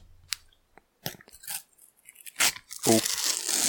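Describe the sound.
A sticker pack is torn open in short, crisp bursts of tearing and crinkling foil, scattered with quiet gaps, and a brief voice is heard near the end.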